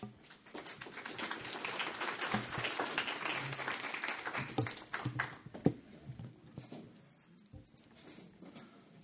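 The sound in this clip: Audience applause welcoming a speaker back to the stage at a Q&A on whether religious institutions can survive clergy sexual scandals. Steady, dense clapping holds for about six seconds, then thins and fades.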